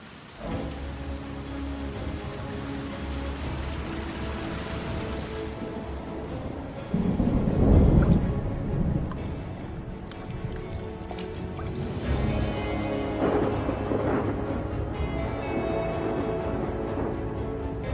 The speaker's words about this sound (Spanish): Gran Cañón se encuentra con su creadora, la única fuerza que puede darle una lección de humildad: lluvia torrencial.